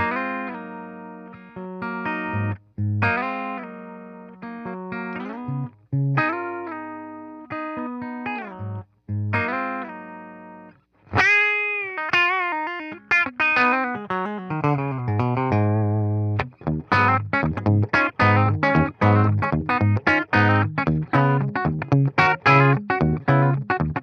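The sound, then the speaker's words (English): Electric guitar played through a Fender Deluxe Reverb amplifier, moving from sustained chords and single notes with brief pauses to a bent note and then a dense run of fast picked notes, loud and with no talk. “Fender Deluxe Reverb.”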